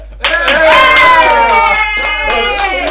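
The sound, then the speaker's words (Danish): A few sharp hand claps stand out against a strong, sustained voice that dominates the short moment. “Klap.”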